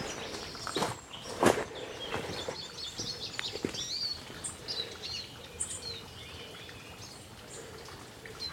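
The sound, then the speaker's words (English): Footsteps walking along a woodland path through a tunnel of elder, hazel and ash trees, with a few irregular crunching steps standing out. Birds chirp and twitter faintly throughout. “Walking along a sort of tunnel now of elders and hazels and some bigger trees, some ashes.”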